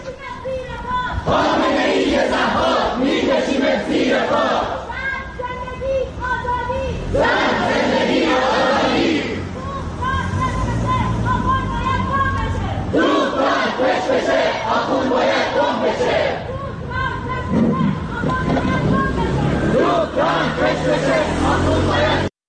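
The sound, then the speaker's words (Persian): Protesters chant slogans at a rally of Iranians in Seoul, South Korea, a large crowd shouting loud rhythmic phrases in unison, continuous and dense throughout with brief dips between chants. “این صدای معترضان در سئول پایتخت کره جنوبی بود”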